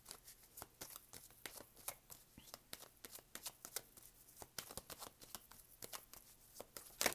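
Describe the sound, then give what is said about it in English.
Tarot cards being shuffled and drawn: faint, crisp flicks and snaps in an irregular run of many short clicks, with soft rustling between them. “All right, let me get one more card here.”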